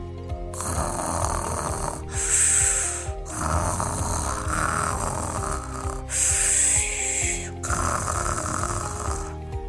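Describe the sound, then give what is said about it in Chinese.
Loud snoring from a large bear, a few long rhythmic rasping snores with snorting breaths, each rising and fading in turn, heard alone without voices. “大熊打呼太吵了，住在它附近我一定会受不了的。”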